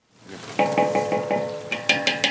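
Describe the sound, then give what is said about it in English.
Rhythmic metallic scraping and stirring of slivered almonds sautéing in margarine in a huge aluminum pot outside at a kitchen cooking for 2,000, with a series of ringing strokes, a brief pause, then a few louder strokes. “She sautés slivered almonds in margarine in a huge aluminum pot outside at the nonprofit organization Ahla Fawda.”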